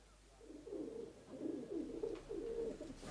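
Pigeons in a dovecote coo in soft, low, rolling murmurs, several overlapping calls running throughout, faint and without talk.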